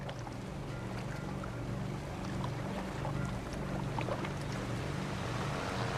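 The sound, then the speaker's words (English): Boats moving across open water, one of them a patrol boat: a steady, low droning engine hum over a continuous wash of water noise, with no voices. “Boats fan out across the water. An officer stands on a stopped patrol boat.”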